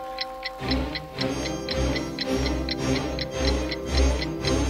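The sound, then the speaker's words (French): Clock striking in a palace: steady, rapid ticking, about three per second, over sustained ringing tones and a pulsing low thump. “L'horloge sonna à nouveau et 10 conseillers en sortirent.”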